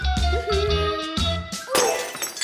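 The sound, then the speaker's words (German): Porcelain dishes breaking while the table is being set: a loud clattering crash with ringing, resonant tones, then another sharp shattering burst near the end. “Dann wollte Kalli die Scherben wegräumen. Wie ein Elefant im Porzellanladen.”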